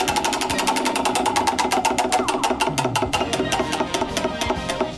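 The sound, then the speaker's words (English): A big prize wheel spinning on a game show: a rapid, regular train of loud mechanical clicks that gradually spread apart as the wheel slows toward a stop. “So let's do that first. Here we go. It's a big spin. No whammies, no whammies.”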